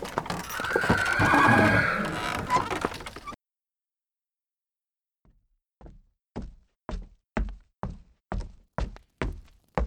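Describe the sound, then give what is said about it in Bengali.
A horse neighs loudly, a long whinny heard alone. After a silent pause, a steady run of hoofbeats clip-clops in an even rhythm from a horse-drawn carriage. “কচুয়ান গাড়ি রোকো রোকো রোকো”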